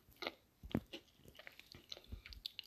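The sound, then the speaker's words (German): Chewing and biting into a chocolate cookie, heard as a few faint crunchy bites followed by soft, irregular mouth sounds. The sounds are quiet, with no talk. “Und esse einen Keks. Mmh. Mmh, Schokolade.”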